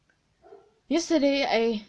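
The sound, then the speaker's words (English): A dog barks: a faint short sound comes first, then a louder, drawn-out bark with a wavering pitch. “Shut up, dog. Why are you always barking? Like, you don't have a purpose, dog.”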